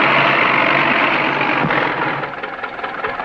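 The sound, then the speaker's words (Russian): A tractor engine on a ploughed field comes to a stop, its loud, dense rumbling noise holding steady, then weakening and turning uneven in the final second. “Камера приближается к человеку, реальный трактор останавливается.”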